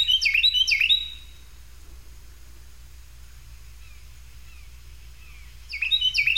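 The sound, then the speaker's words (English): Carolina wren song: bright, high, whistled phrases of rapidly repeated notes. One loud burst comes at the start and another at the end, with faint thin calls and a steady low hum between them. “this is an example of a Carolina wren for those of you who might be wondering what that bird sounds like.”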